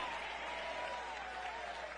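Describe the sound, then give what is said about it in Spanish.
Congregation applauding during a church sermon: steady, dense clapping that holds at an even level for about two seconds. “Dale un aplauso al Cristo de la gloria.”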